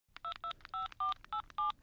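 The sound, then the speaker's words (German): Telephone keypad tones dial a number: six evenly spaced electronic beeps, each a steady two-tone note, alone with no voices. “Okay, dann rufe ich jetzt an.”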